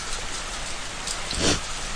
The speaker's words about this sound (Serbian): Dođite bliže, tu ne pada kiša.